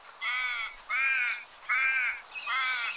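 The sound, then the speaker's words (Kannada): Crow cawing from a big tree in a corner of a park: four loud, harsh, drawn-out caws in a steady rhythm, each lasting most of a second, heard alone. “ಎಲ್ಲೆಡೆ ಹಕ್ಕಿಗಳ ಚಿಲಿಪಿಲಿ ಪ್ರಶಾಂತವಾದ ವಾತಾವರಣ ಪಾರ್ಕಿನ ಮೂಲೆಯಲ್ಲೊಂದು ದೊಡ್ಡ ಮರ ಅದರ ಮೇಲೊಂದು ಕಾಗೆ ಕುಳಿತಿತ್ತು”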